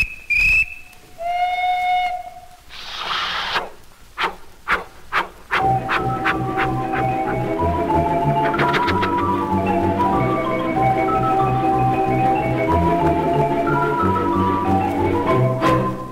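Steam train departure whistle in a dance-orchestra medley about a train ride: shrill whistle blasts, a burst of steam hiss and a few chuffs, then the band strikes up and plays on loudly.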